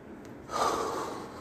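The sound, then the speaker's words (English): A single deep inhale, done on cue as a breathing exercise: after a short pause, an airy, breathy intake of air rises and holds for about a second, moderately loud, with no talking. “Take a deep breath with me, right? We're going to do it on three. Inhale.”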